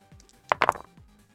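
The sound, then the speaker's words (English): Dice rolled during a tabletop role-playing game session make a quick cluster of a few sharp clattering knocks within a fraction of a second, heard alone without talk. “I need to find what dice to roll because I've never ran this creature.”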